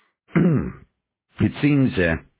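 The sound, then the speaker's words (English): A man coughs and clears his throat: a short voiced grunt, a pause, then a longer rough clearing in two or three pulses. Both sounds are fairly loud against silence. “He coughed, clearing his throat.”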